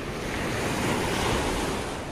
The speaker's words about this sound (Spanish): Con esta marea vamos a ahogarnos. Mira, muéstrale la marea.